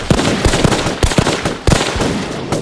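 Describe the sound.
A volley of guns fires in rapid succession, a loud, dense run of sharp overlapping cracks and bangs that carries on without pause and has no voices.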